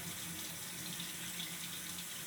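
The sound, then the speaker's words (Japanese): A shower runs to rinse off sweat, giving a quiet, steady, even hiss of falling water with no voices. “先にシャワーで汗を流さないとね。”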